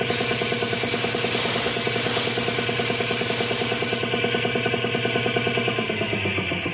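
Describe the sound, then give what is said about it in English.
Spray painting a bolt: a bright, steady hiss of paint spray that cuts off abruptly partway through, over a continuous rhythmic, droning background. “Give it another shot of paint over here”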